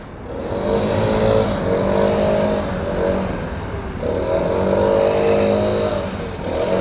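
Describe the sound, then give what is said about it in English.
A gas leaf blower engine drones continuously and fairly loud, its tone swelling and easing slightly over the span, with no voices. “I can't stand them gas blowers.”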